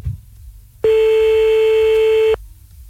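A telephone tone sounds after a call is cut off: a single loud, steady electronic tone at one fixed pitch holds for about a second and a half, then stops abruptly, with quiet background before and after.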